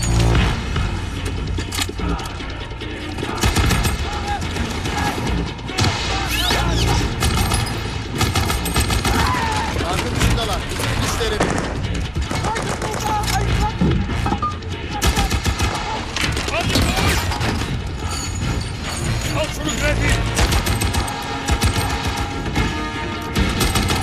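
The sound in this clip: Gunfire volley fired on command: dense, sustained shooting with many rapid overlapping reports and booms, loud and unbroken for the whole stretch with no pause.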